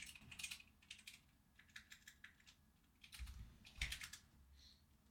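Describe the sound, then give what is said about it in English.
Fast, vigorous typing on a computer keyboard rattles out in quick, uneven bursts of clattering keystrokes, fairly faint, with a few heavier thumps and brief pauses between flurries. “I'm trying to move out of the way so you guys can hear how fast and vigorous he types.”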